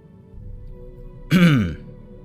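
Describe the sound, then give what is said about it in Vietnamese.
A single dry cough from a man in a Vietnamese narrated story, one short harsh burst like a throat-clearing, over a faint low background hum. “Bỗng nhiên thì tên mặt dỗ ho khan một tiếng”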